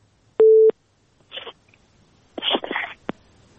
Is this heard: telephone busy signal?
yes